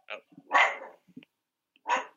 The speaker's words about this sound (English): my dog, sorry about that.